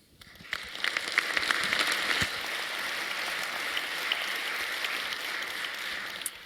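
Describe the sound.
Audience applause welcoming a speaker to a retro-computing talk about the Acorn Archimedes computer, a steady wash of clapping that rises within the first second and holds evenly at a moderate level until the end.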